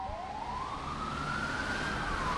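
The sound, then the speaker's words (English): A fire engine's siren wails as it leaves a downtown fire station in Coimbra during a wildfire season. One long tone climbs slowly, holds and then dips near the end over a steady low rumble. “Yet another fire engine leaves the Magalhães Avenue station in downtown Coimbra”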